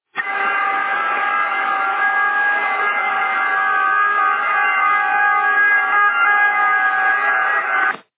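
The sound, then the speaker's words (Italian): Siren-like blare relayed over a CB radio channel, a steady, narrow-band, multi-toned wail held at constant pitch and loudness for about eight seconds, with no talk over it. “Sento le sirene”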